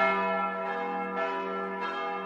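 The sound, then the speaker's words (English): Church bells chime at a church in Mosul, northern Iraq. A few strikes ring out over a sustained, resonant metallic hum, loud and alone without voices. “Church bells chime in the city of Mosul in northern Iraq. This is from a video posted online. It shows St. Thomas Church, one of several churches in and around the city.”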